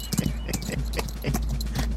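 A horse's hooves clip-clop in a quick, steady rhythm of many sharp knocks, with a constant low hum running underneath.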